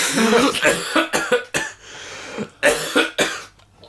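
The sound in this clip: Harsh coughing from a man choking while eating an orange: a rapid run of many coughs and throat-clearing bursts, loud and irregular, with brief pauses between clusters.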